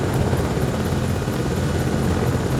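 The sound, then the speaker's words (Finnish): A medical helicopter arriving to land on the rooftop of a tall building, its rotor throb and engine roar loud and steady throughout, with no voices. “Se toi mediheli tulee tuohon. Vai se on se mediheli? Ootellaan hetki. Joo. Niin, mutta se laskeutuu tuohon, joo, tuonne katolle. Tuonne korkean talon.”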